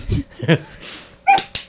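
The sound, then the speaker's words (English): Dogs whimpering and yipping as they wrestle, a few short high cries and whines in quick bursts, the last two sharper and louder. “The dogs are wrestling”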